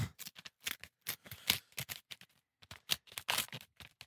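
An envelope being opened by hand: many crisp paper crackles and small rips in an irregular, quick sequence, quiet throughout.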